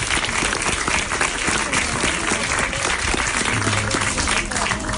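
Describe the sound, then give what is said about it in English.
Sustained audience applause at the Zurich Film Festival welcoming filmmaker Ramona Diaz before a screening of her film Motherland, a dense, loud and even roar of clapping lasting throughout. “Yes, let's give her a round of applause.”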